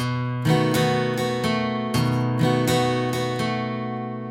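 Guitar strumming in a repeated pattern of a bass note, down, up, up, down, with the third string hit on the last down. Bright, ringing chords keep a steady, even rhythm, and each strum rings on into the next.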